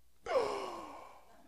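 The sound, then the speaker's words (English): A voice imitates a deep gasping breath, like someone revived after thumps on the chest. A single sharp inhale starts abruptly, then falls in pitch and trails off over about a second. “And then he draws this deep breath, kind of like every bad movie that you've ever seen where somebody just like thumps on the chest and finally the person's like,”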